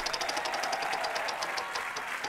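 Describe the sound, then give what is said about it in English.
A spun prize wheel ticks rapidly, its clicks spreading further apart as it slows, over steady background noise. “Nick, your turn to spin that magical wheel of misfortune.”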